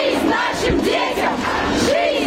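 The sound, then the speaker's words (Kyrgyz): Anti-war protesters on the Arbat in Moscow chant slogans during a demonstration against mobilization. Many voices merge into a continuous, steady crowd chant with rising and falling vocal tones. “Москвада арбатка чыккандар балдарыбызга жашоо, согушка жок деп ураан чакырып турушту.”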